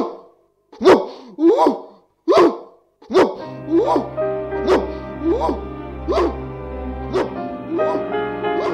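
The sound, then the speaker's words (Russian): A dog barks in a steady, rhythmic series of many short, sharp barks, joined partway through by a low sustained drone. “Так она лает, когда почувствует опасность.”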